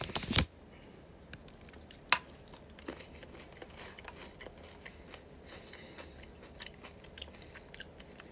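A protein bar being bitten into, with one crisp, crunchy bite at the very start, then quiet, moist chewing and a few soft crunches that continue faintly to the end.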